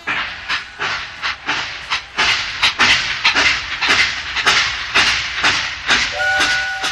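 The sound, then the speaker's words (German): A steam locomotive starts off with many strong, evenly spaced chuffs in a steady rhythm, and a short whistle sounds near the end. “und wir starten mal die Lok.”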